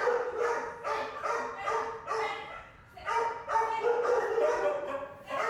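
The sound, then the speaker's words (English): A big dog crying, with repeated high, wavering whines and wails that run almost continuously and rise and fall in short, overlapping bursts. “Once you've heard a big dog cry, you won't forget it.”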